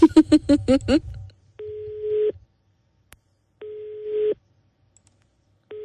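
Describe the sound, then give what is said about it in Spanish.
Telephone line tones sound as repeated steady mid-pitched beeps, each under a second long and spaced about two seconds apart, with the last one cut off. A short patch of voice-like sound comes just before them. “A ver, deme tono, por favor. Vamos a marcar.”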